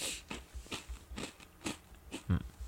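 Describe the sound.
Several crisp crunches come from someone biting into and chewing Happy Turn rice crackers. The snaps are short, quiet and irregularly spaced, with no talking.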